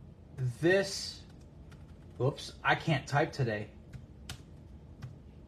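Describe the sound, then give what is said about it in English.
Typing on a computer keyboard, light quick key clicks heard under and between a person's speech. “I can't type today.”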